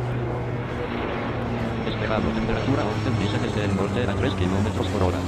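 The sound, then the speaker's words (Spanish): Airplanes passing at Sauce Viejo airport make a continuous engine drone that grows slightly louder partway through, with indistinct voice-like sounds mixed over it. “Los aviones que siguen pasando. Una panorámica del aeropuerto de Sauce Viejo, imaginariamente.”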